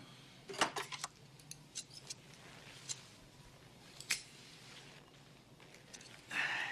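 Scissors cut hair in a barbershop haircut: a series of quiet, crisp, irregular snips and clicks, ending with a short soft rustle.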